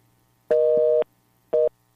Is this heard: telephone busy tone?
yes